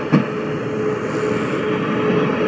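Space Shuttle Endeavour touching down on runway 15 at Kennedy Space Center and deploying its drag chute: a brief thump near the start, then a steady, broad rushing roar that continues throughout.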